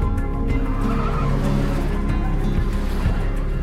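A car drifts with tires squealing, a continuous engine drone with steady low harmonics under a sustained, unbroken screech of sliding rubber, loud throughout.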